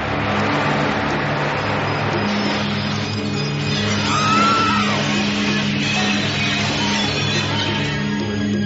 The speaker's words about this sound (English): Well, that guy's got a problem. I don't know where he thinks he's going. He's got about 200 miles before he hits anything. Hey, he's driving right towards the bar!